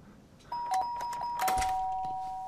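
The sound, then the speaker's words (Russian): An apartment doorbell rings, clear chiming tones that start suddenly, chime again a moment later, then sustain and slowly fade over a low background. “Звонок в двери.”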